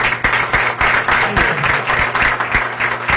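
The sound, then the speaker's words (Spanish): A crowd applauds at the inauguration of an auto parts shop's new premises, just after a priest's blessing. Loud, dense clapping keeps a steady, busy rhythm from start to finish. “Y un fuerte aplauso entonces”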